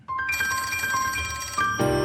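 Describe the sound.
An electronic telephone ring signals an incoming phone call: bright, shrill ringing tones warble continuously for about two seconds, shifting to a different tone near the end, with no voices.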